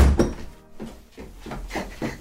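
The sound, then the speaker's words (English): A heavy thump as a child's feet slip off bicycle pedals set under a seat raised too high and the rider lands on the crossbar: one loud, low knock at the start, then softer scuffing and rattling. “Me dad's made me seat too high and me feet slipped off the pegels and I banged myself on the crossbar.”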